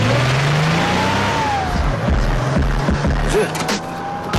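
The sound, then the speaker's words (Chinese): A car engine as the car sets off from a garage: a steady low rumble with a whine above it that climbs in pitch, loud and continuous, with no voices. “七点四十，到达车库，系好安全带，打开收音机， FM九八 出发。”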